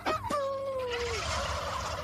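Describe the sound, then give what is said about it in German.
A rooster's courtship call to hens: one loud harmonic call with a sharp start, then a long drawn-out tone that slides slightly lower before fading into a steady noisy background. “Die Hähne sprechen mit den Hennen zum Beispiel so, dass sie”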